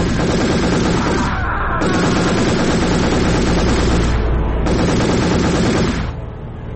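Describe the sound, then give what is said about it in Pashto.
Gunfire erupting at a small military post: dense, continuous machine-gun bursts with rapid rattling shots and brief dips between volleys, tapering off near the end. “او د ډزونو غږ شو”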